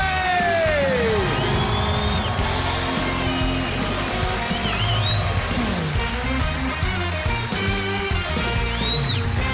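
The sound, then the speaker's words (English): A theater audience in Hendersonville, Tennessee cheers loudly and steadily, with whoops and yells rising out of the crowd noise for the whole stretch. “I'm so delighted to have this great crowd here in our theater in Hendersonville, Tennessee, just outside of Nashville.”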